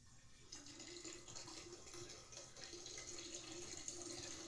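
A person urinating into a nearby toilet makes a faint, steady splashing stream with a soft hiss that continues without a break.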